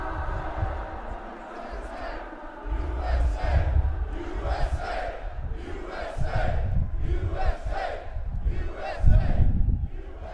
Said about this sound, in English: The sound you are hearing is roughly 22,000 voices from roughly 22,000 men and women carrying 22,000 guns and chanting their violent opposition to all forms of gun control.